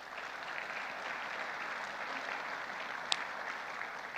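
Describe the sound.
An audience at a church service applauds to welcome a speaker. The clapping is fairly faint and evenly sustained throughout, with one sharp click standing out partway through.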